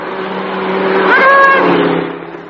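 A car-speeding-past sound effect: a loud engine roar swells, peaks with a brief whining tone, then fades away over about two seconds.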